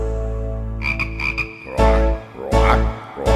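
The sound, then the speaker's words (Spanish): Frogs croak in a few rough, buzzy bursts, loud and clustered, with short gaps between them, over a steady tonal hum that runs through the whole clip. “Mira cómo croan las ranitas.”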